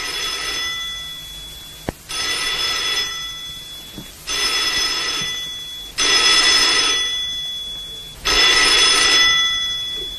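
A telephone bell rings five times in long, shrill bursts separated by short pauses, loud and steady with no talk over it.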